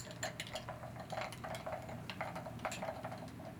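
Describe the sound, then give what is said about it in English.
Ice clinks and rattles in a glass as a drink with maple syrup and a cinnamon stick is stirred. The sound is a steady run of many light, bright taps, with no talk. “And we're just going to give that a stir. Let some of that ice melt down.”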